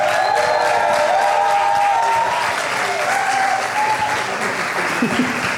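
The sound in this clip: An audience at a live concert in Rennes applauds and cheers for a band. The clapping is loud, dense and steady, with whistles and cheering voices over it that ease slightly toward the end.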